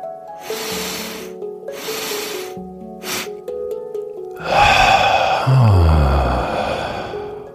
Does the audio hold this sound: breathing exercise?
yes